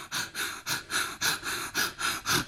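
Bhastrika breathing demonstrated during a pranayama breathing exercise: rapid, forceful breaths in an even rhythm, a steady series of strong hissing pulses at roughly three per second, with no talk.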